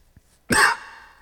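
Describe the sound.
A single short cough from a speaker, one sharp, harsh burst that fades quickly, heard alone after a faint tick.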